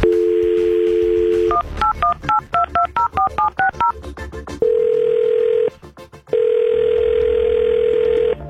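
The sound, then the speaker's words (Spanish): Touch-tone keypad beeps dial a telephone number in a quick run of many short two-note tones. A steady, loud dial tone sounds before and after, with no voices. “vamos a marcar”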